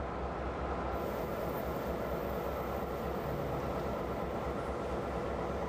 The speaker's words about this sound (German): Hier wird R21 gedreht, die älteste Lok dieses Typs in Taiwan.